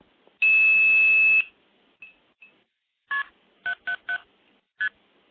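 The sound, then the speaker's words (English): Blue box tones dialing KP777START into the Telefreak phone system over a SIP link: a loud, steady one-second tone, a couple of faint blips, then five short, clipped two-tone beeps in quick sequence. “I do have a direct SIP connection into Telefreak that can be dialed using a blue box. That's with KP777START, and that's not a telephone code.”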